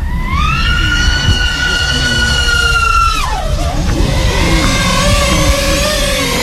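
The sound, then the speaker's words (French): High whine of an FPV drone's motors climbing in pitch at takeoff, holding a steady tone for a few seconds, then dropping abruptly to a lower whine over a low rumbling background. “Je viens préarmer mon drone et l'armer. Et là, je suis en mesure de décoller. On peut voir, c'est que le FPV, c'est aussi très rapide. Hein, on va le voir, je vais faire une accélération.”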